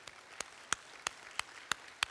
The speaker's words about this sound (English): If you believe it, let's give the Lord a hand clap of praise this morning.